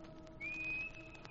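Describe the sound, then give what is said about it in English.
A person standing on a dock whistles a single steady, high note that lasts under a second as a signal to come on board, faint over a low background hum. “When I come back, I'll stand in the dock and whistle. Like this.”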